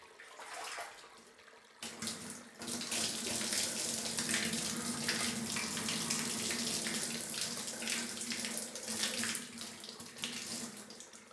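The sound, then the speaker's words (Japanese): Warm running water rinses hair during a hair wash: a faint, steady hiss of flowing water with soft splashing, beginning after a brief quieter moment and continuing to the end. “それでは一旦お湯でお流ししますね。”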